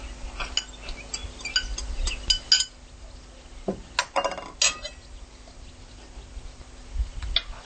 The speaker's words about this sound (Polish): Dodajemy też kukurydzę.